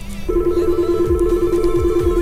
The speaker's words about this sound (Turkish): stüdyoya bir telefon gelmişken de ne güzel, böyle şakır şakır numaralar da çalışıyorken demek ki doğru yoldayız.